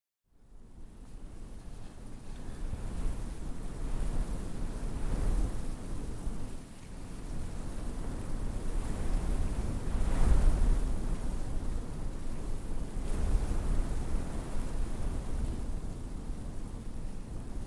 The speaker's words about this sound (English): What would the prairies be without wind? It's the keynote sound here.